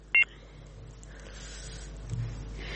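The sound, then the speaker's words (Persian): A single short, high electronic beep sounds as a phone call cuts off, followed by a low, steady line hum and faint background noise. “متاسفانه بازم تماس برادر ما فکر کنم که قطع شد”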